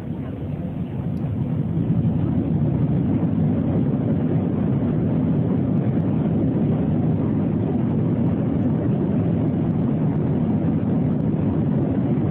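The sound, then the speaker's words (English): An airliner rolls down the runway on its takeoff run, producing a dense, steady engine roar that builds slightly in the first two seconds and then holds constant and loud. “They're rolling down the runway. You can watch the video after the fact here. Everything looks like it's going well, accelerating, and then...”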